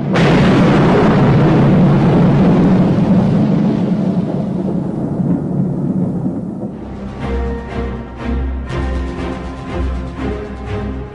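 Thunder rolls in a long, loud, low rumble that slowly thins out. Music then comes in over its fading tail.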